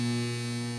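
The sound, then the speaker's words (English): Steady electrical hum of mains electricity, a constant low drone with layered buzzing overtones that holds unchanged throughout. “That's the sound of electricity.”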